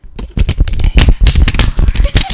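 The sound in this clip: A deck of cards is shuffled, producing many quick, crisp riffling bursts in an uneven rhythm. The bursts are loud and follow one another closely.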